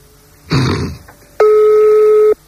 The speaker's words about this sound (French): on est en train de faire un autre numéro d'un particulier. Ça décroche.